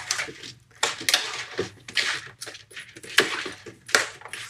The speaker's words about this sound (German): Und jetzt nehme ich einen großen Löffel und rühre das Ganze zusammen, dass das Salz und das Öl sich auf allen Seiten von der rote Beete befindet.